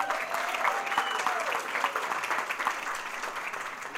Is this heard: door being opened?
no